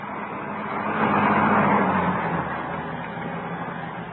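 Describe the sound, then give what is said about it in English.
Engine of an approaching post office van: a steady, low motor rumble that swells toward the middle and then eases slightly, with no voices. “As the car stopped, the first post office van was already approaching.”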